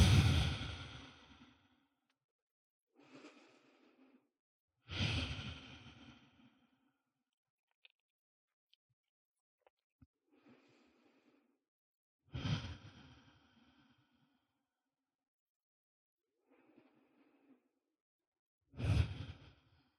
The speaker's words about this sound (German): Atme noch ein paar Mal ein und aus hier, wenn du magst.